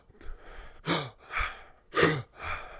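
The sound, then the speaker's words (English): Breaths drawn in by a person showing how people pack air on air while working out: several short, airy inhalations in quick succession at a steady rhythm, moderately loud and breathy, with no talk. “a lot of us, we believe that the healthy aspect of taking a deep breath is,”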